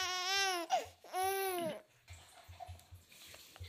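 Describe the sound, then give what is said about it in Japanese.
A sleepy baby cries in two drawn-out, high-pitched wails, then settles into quieter fussing and small sounds. “寝ちゃうの前の泣き、眠いって言って泣いてますね、これはね。”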